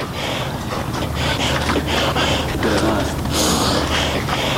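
Heavy, laboured breathing of a mountaineer climbing Siyakoh mountain near Firozkoh: loud, rhythmic, rasping breaths, one after another, over a steady rushing noise.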